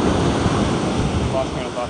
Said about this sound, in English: I think there's water coming in.